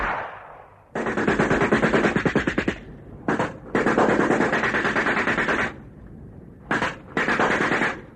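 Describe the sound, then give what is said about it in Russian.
A scattered volley of rifle fire in a wartime battle: loud, rapid crackling bursts of many shots, two long stretches broken up by shorter spurts and brief pauses. “По моей команде открываем беспорядочный огонь. Только осторожно, приготовиться. Огонь!”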